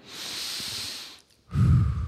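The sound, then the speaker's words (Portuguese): An audience breathing in together on cue: a long, airy hiss from many people, a short lull, then a louder, lower, rougher rush of breath. “Tá vendo? Muitos inspiraram e respiraram.”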